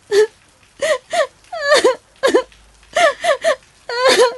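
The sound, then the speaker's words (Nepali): A woman cries in many wailing, sobbing bursts, each voiced sob bending up and down in pitch with short gaps between them, loud and without other talk. “भाउजू के भयो किन रुनु भएको”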